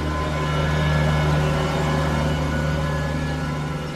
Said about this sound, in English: like Navadvipa, they have tractors running up and down the road all day. There's one right here on our street.